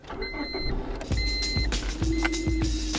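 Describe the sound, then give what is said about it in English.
Car sounds during a ride: a thin whirring motor tone starts and stops several times, mixed with low rumbling and a few dull mechanical thuds. “Hey, hop in. Let's take a ride.”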